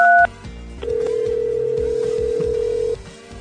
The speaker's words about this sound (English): Okay, but they have an automated system, so it's time to call 213.